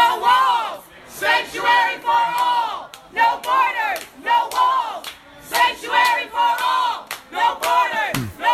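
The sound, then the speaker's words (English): Protesters heckle Homeland Security Secretary Kirstjen Nielsen at a Mexican restaurant near the White House, shouting in loud, rhythmic group chants. Sharp bursts of voices repeat many times with brief pauses between them. “We've got some sound of people heckling her.”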